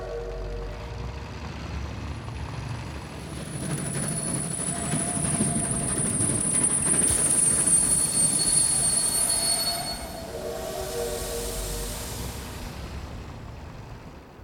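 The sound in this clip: Rumble of a train at a railway station, with squealing wheels and thin high-pitched metallic tones over a low rolling noise. It swells louder through the middle, then eases back. No voices.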